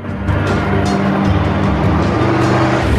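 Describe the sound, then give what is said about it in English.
Four Humvees tear across a dusty desert track, their engines making a loud, continuous roar with a gritty rumble that holds steady throughout. No voices are heard. “4 Humvees come tearing across the dusty desert track, producing clouds behind them.”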